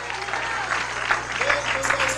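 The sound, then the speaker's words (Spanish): A church audience applauds in praise of the Lord. The clapping is steady and moderately loud, with voices rising above it near the end over a low, constant hum. “Dele ese aplauso al Señor.”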